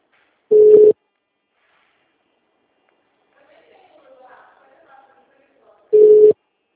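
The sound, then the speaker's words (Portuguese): A mobile phone signals an incoming call with two short, identical electronic tones about five seconds apart. Between them, faint murmuring voices are heard. “Que eu acho que a minha dentista deve estar ligando.”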